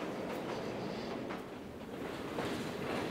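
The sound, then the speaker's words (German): A metre-gauge mountain train runs downhill along a slope leaving the Chamonix valley, heard as a faint, steady rumble mixed with a broad rushing hiss that swells slightly toward the end. “Der Mont Blanc Express verlässt das Tal von Chamonix, schlängelt sich am Hang entlang, bis er schließlich die Ebene erreicht hat.”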